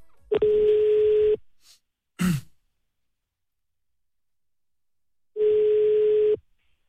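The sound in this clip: A telephone line tone while placing a call sounds as two long, steady, mid-pitched tone bursts of about a second each, separated by a long gap. A brief breathy exhale falls in between.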